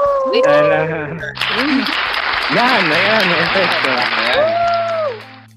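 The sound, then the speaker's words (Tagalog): A small group claps for themselves, a dense, steady burst of applause lasting several seconds that then stops. People talk over it throughout. “Palakpakan naman natin mga sarili natin na”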